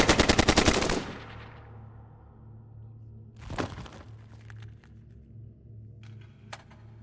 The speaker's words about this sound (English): More hostiles opening fire